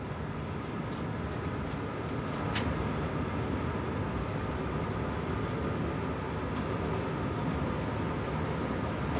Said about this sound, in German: Die 5000 PS starke Lok wird von zarter Hand gesteuert.